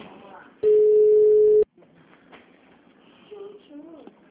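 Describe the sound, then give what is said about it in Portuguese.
A steady telephone line tone plays for about a second during a call to a clinic. Soft voices follow on the line. “Não, eu tô ligando pra clínica pra poder ver se consegue agendar lá, pra fazer a visita.”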